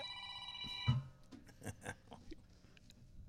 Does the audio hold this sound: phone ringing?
yes